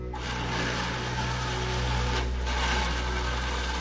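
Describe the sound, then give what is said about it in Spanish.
A water pump runs, draining well water into storage tanks: a constant motor hum with a steady whine and low drone, unchanged throughout. “Hay un poco de agua aquí. Enciende la bomba.”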